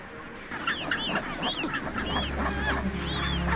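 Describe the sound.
Hungry bird chicks cry on an Antarctic island in midsummer. A dense chorus of repeated high, wavering calls overlaps continuously above a steady low background rumble.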